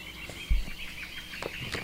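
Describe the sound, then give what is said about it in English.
Birds and frogs call softly together. Scattered short chirps and croaks sit over a faint, steady high buzz, with no voices. “we're listening to the soothing sounds of birds and frogs”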